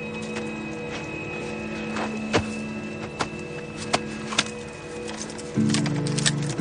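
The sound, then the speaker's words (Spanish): A horse in a 2007 Western film as the rider Evans dismounts. A few soft hoof thuds and sharper knocks sound over a sustained musical score, which swells louder near the end. “Evans desmonta del caballo.”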